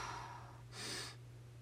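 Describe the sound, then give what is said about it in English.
A vinyl record is sniffed up close in one short, breathy nasal inhale. The sniff is faint and sits over a steady low hum. “I'm sure this sniffing ASMR is not anyone's favorite, but it just smells so good.”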